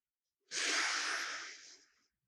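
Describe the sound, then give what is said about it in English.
A single deep, deliberate breath taken during mindfulness meditation: one long, airy, faint rush of air that swells quickly and then fades gradually, heard alone. “Maybe taking a few very deep and deliberate breaths.”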